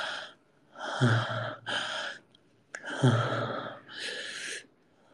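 Short, quick breathing: several breathy bursts of air in and out, each lasting under a second, in an uneven rhythm with brief pauses between them. Some breaths sound sharper and gasping, others softer and more sighing.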